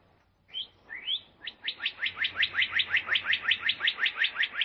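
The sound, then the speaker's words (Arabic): A sparrow chirps: two separate rising chirps come first, then a fast, regular run of many high, bright chirps that continues steadily to the end, with no other sounds. “أحضرت له كأس ماء، إلا أن العصفور لم يشرب وظل يصيح.”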